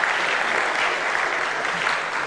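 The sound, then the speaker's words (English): An audience gives a round of applause, a dense, steady roar of many clapping hands that holds evenly through the short stretch. “We give her a round of applause.”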